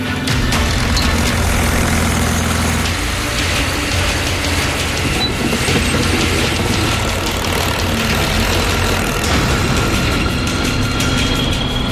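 A 1941 vehicle's engine runs as it is driven, giving a loud, continuous mechanical rattle and clatter with a steady low drone during the first few seconds.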